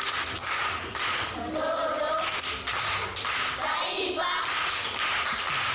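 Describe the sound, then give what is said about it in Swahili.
An audience clapping at a school quiz session, a quiet, dense patter of many hands that continues for several seconds. “Makofi kwa mjomba.”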